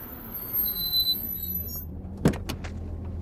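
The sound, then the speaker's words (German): Car tyres spin and squeal in a short, sharp burst of screeching over a steady low engine rumble. “Die Reifen drehen ja jetzt schon durch.”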